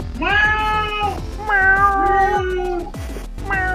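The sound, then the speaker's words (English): Cat meowing in a few drawn-out, wavering calls with brief pauses between them, loud and clear with no other sounds. “My cat is insane.”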